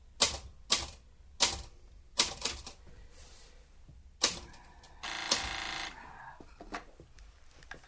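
Typewriter keys clack in irregular bursts of sharp, crisp strikes, with a longer rasping burst partway through. No voices are heard.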